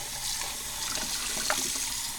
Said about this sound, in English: Rinse, rinse, rinse, rinse, rinse. Jeez, did I use enough soap? Now I can't get all the soap out.